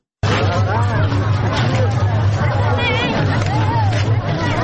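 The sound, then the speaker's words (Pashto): Dense, loud hubbub of Eid guests crowding Tarinkot city: many overlapping voices chatter without a break for the whole clip, over a steady low rumble. “دا شور او زواج په ترین کور شار کې د میلیانو دی، نه د موټرو.”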